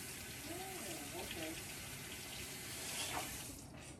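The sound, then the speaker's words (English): Tap water runs in a steady, continuous hiss as a peach is washed off under it, with a brief voice speaking in the first half. “That was just okay, I'm washing it off right now.”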